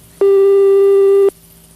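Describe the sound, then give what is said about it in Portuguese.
A telephone call's ringing tone sounds as a single steady electronic beep lasting about a second, loud and unwavering, starting and stopping abruptly with no voices. “Olha, tá chamando aí o Cardoso.”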